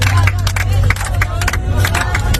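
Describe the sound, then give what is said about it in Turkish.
Passengers applaud aboard an airplane as it lands in Saudi Arabia, many rapid, overlapping claps over a steady low engine hum. “Uçağın Suudi Arabistan'a inişe geçtiği sırada yolcuların alkış yaptığı anlarda cep telefonu kameralarına yansıdı.”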